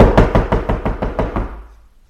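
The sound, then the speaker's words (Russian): Firm knocking on a door: a rapid, even run of loud, hollow knocks that fade out toward the end, with no voices. “Гость остановился перед дверью и крепко постучал.”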